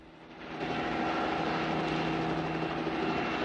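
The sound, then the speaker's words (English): A helicopter hovers among mountain peaks overlooking a plain, its steady rotor and engine drone swelling in during the first half-second, then holding at a constant, moderate loudness. “A chopper hovers amongst the mountain peaks overlooking the plain.”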